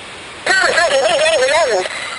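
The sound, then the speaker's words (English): A talking toy parrot plays back a voice as a high, warbling phrase of about a second and a half with a wavering, sing-song pitch, rising clearly above a faint steady hiss. “You kind of talk into it and it repeats what you say, like a different voice. Oh. It's like a stupid gag toy.”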